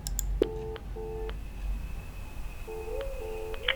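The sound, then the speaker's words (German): Electronic telephone ringing on a manor's house line: two rings, each a pair of short steady tone pulses, separated by a pause, with no voices. “Na, wer sagt's denn? Ein Anruf auf den Hausanschluss der Worlington. Stellen Sie laut.”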